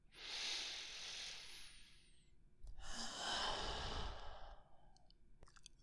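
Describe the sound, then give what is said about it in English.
A deep breath taken alone, heard as two long, airy breathing sounds separated by a short pause, with a steady hiss and no voices. “Why don't you take a deep breath?”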